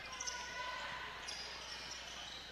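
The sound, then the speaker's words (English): A basketball is dribbled during a crossover move into the paint in a game, a few faint bounces under a steady crowd roar. “Dokes out top, crossover dribble into the paint.”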